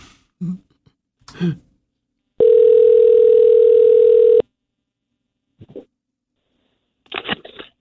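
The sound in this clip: A steady telephone dial tone holds for about two seconds in the middle, set between a few brief clicks and handling noises before and after.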